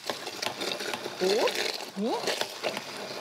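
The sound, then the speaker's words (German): A blender purees frozen berries with a buzzing, whirring motor that runs throughout, rising louder in a couple of surges, while a voice is briefly heard over it. “Und hier habe ich jetzt tatsächlich noch Tiefkühlbeeren im Eisfach gefunden. Man könnte aber auch Beeren nehmen, die vielleicht jetzt nicht mehr, also die nicht schimmelig sind, aber die vielleicht nicht mehr so richtig viel Power haben. Und das hier püriere ich einmal.”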